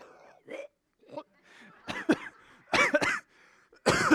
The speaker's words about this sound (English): I just incited more coughing.